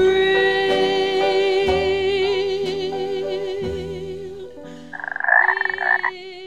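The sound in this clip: Frogs croaking in a steady, droning chorus of buzzy calls with regular pulses, then a short burst of louder, rapid rattling croaks near the end.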